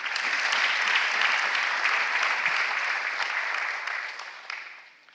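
An audience at Go Center church applauds in a dense, steady wash of clapping that holds for several seconds and then tapers off.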